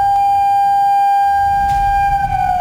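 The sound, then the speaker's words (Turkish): Civil defense sirens across Çanakkale province sound a steady emergency tone during the first test of an alarm system developed by AFAD and Aselsan. The sustained, loud, unbroken wail holds one pitch for the whole stretch. “İl genelindeki sirenler aynı anda acil durum tonunda çaldı.”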